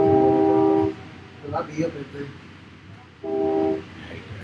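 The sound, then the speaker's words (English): A train horn sounds two long, steady blasts with a gap between them. People talk quietly in the gap. “I hate that. The train? That train. Blasting.”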